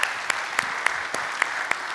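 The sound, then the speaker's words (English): An audience claps at a worship service to welcome online viewers, steady applause with sharp accents recurring at a regular beat. “if you would put your hands together, welcome in our online family.”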